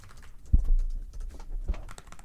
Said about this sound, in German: ER typer.net, Hackertyper. Und du hast einfach eine schwarze Website ah, und du kannst einfach so Tasten, schnelle Tasten eingeben.